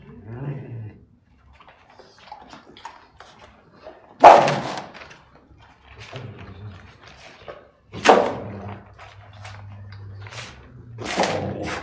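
A female dog barks and growls while biting a handler's hand during leashed bite work. A few sharp, loud barks stand out, with a low rumbling growl between them.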